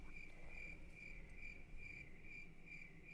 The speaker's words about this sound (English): Oh, you know what that is? That's the sound of crickets.